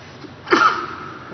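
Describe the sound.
A single sneeze: a short, sharp burst of breath midway through, trailing off into a brief breathy tail after near quiet.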